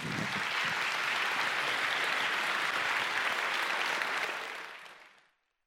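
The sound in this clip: An audience applauds to welcome a speaker, a steady, dense wash of clapping lasting about five seconds before fading out at the end.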